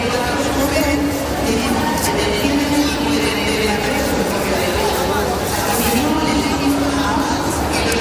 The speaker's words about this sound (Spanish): Unos retrasos y averías que, como estás escuchando, bueno, pues están anunciando por megafonía.